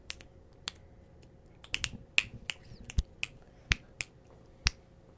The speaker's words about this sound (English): Did you know that when you snap your fingers, it's not actually the rubbing of your fingers that makes the noise. It's your middle finger hitting your palm that makes the snap noise. Example.